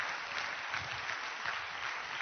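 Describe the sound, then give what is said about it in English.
Steady applause from an audience thanking the cafeteria staff: a dense, even patter of many hands, fairly quiet and unbroken throughout, with no voices over it. “So please keep them in mind. A round of applause would be very, very good to thank them.”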